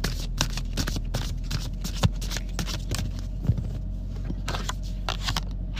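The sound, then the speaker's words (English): Playing cards drawn from a deck make soft rustles and a few sharp papery snaps and clicks over a steady low hum, with no talking. “that's the deck I'm pulling from right now. Okay, we got card number 28.”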